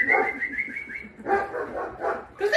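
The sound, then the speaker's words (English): A dog barking with high, whiny yips and whimpering tones, several short calls in quick succession, fairly loud. “Sorry, that's my dog.”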